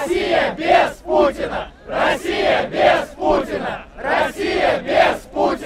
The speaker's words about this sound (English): That's the sound of protesters chanting, Russia without Putin.